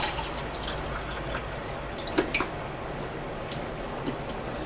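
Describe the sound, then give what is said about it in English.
An electric kettle finishes boiling with a steady rushing, bubbling hiss throughout, broken by a few small ticks and clicks. “Kettle's finished boiling now.”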